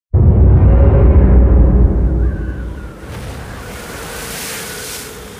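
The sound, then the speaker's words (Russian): Wind howling over rushing water around a sailing ship with paddle wheels, loud and rumbling for the first two seconds, then easing into a steadier, softer hiss. “Завывание ветра, хлопки парусов, скрип такелажа и гребных колес.”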